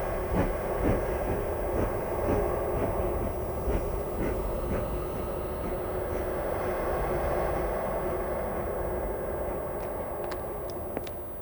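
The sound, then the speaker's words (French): Train buffers clank as a train starts to move, over a steady, loud rolling rumble with scattered metallic knocks and a few sharper clicks near the end. “Cliquetis des tampons, le train s'ébranla.”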